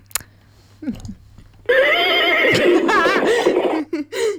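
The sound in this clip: A person imitates a horse neigh with the voice, a loud, long whinny with a quivering, wavering pitch, preceded by brief vocal sounds.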